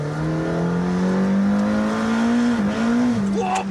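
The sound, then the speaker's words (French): A hypercar driven hard on very wide tyres that are still cold and short of grip, its engine holding a loud, steady high drone with brief dips in pitch near the end. “Sur ce genre d'auto qu'on peut appeler des hypercars, les pneus sont tellement larges, tellement performants, qu'il faut vraiment les faire chauffer. Tu vois, là pour l'instant, j'ai pas trop de grip.”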